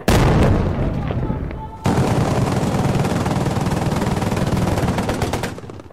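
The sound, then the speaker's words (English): Artillery fire from a long-tubed, homemade-looking gun mounted on the back of a pickup truck and fired by rebel forces, a loud, deep blast followed by a sustained rumbling roar. “The rebel forces just fired a single artillery piece, a long tube with a big shell in it that looked like it was a relatively homemade affair on the back of a pickup truck.”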